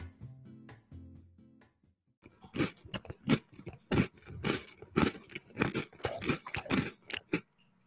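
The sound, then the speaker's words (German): Crunchy chocolate chips are chewed in many rapid, loud bites and crunches in an irregular rhythm, after a short quieter tonal passage. “Na, schmeckt oder? Ja, Chocolate Chips.”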